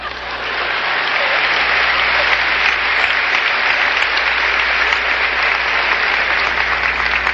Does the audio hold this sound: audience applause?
yes